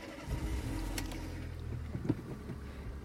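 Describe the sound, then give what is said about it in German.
A car drives off with a quiet, steady low engine rumble that holds evenly throughout, with no clear revving peaks. “ich fahre jetzt noch Auto”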